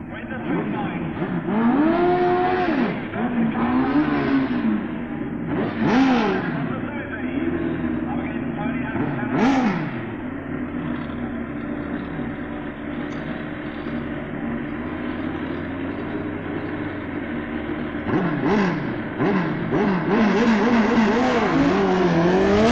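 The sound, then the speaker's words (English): A 1200 Suzuki and a 1000cc Kawasaki street bike drag racing, engines roaring continuously with several sharp revving sweeps, under a man's commentary. “Street bike. True road-going machines tuned to their ultimate. Pip Hyams 1200 Suzuki racing Tony Huck's 1000cc Kawasaki.”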